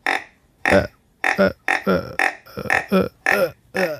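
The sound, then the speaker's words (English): A person imitates a deer's tending grunt, the call a buck makes when hot on the trail of a doe: many short, throaty, burp-like grunts in a quick, uneven series, loud and without other talk. “Next call I want to talk about is the tending grunt. Has a little bit more emotion. It's a call that deer use whenever they're hot on the trail of a doe.”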